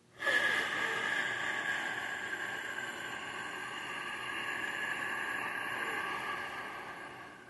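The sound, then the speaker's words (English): A long breath drawn through the nose gives one sustained, airy hiss that starts abruptly and holds steady and soft for several seconds, with no talk. “Breathe in through the nose. Hold it. Out through the nose.”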